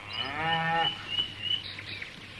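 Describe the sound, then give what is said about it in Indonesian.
Cows that had wandered off, found close to a resting spot, mooing: one long, loud, low moo opens, followed by quieter, scattered sounds. “Ternyata sapi-sapi yang mereka cari berada tak jauh dari tempat mereka akan beristirahat.”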